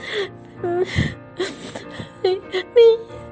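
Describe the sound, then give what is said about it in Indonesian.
Crying in uneven bursts of whimpering wails with gasping breaths between them, ending in a few short, louder sobs. “Aduh, masih aja nangis. Sedih banget ya.”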